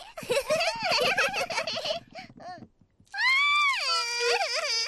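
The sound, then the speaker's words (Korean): A young child wails in a high, drawn-out cry with strongly wavering pitch, loud and alone, after a few seconds of excited babbling vocal sounds that break off into a brief near-silence. “얘 왜 울어? 계단을 내려오는 게 무서워서 우는 거 아닐까?”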